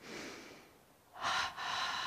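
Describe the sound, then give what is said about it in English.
A double breath taken as a breathing exercise before meditation: a soft airy breath, a brief pause, then two strong, rushing breaths in quick succession, loud and breathy, with no talk. “be sure to do what Yogananda suggested prior to the techniques, and that is tense and relax, a double breath,”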